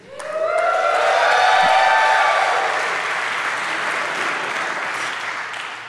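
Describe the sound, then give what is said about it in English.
Audience applause swells quickly with a few rising cheers, holds as a dense roar of clapping, then gradually thins and softens toward the end. “I wanted to wait until your applause was fully gone. I wanted to know that those claps were for me.”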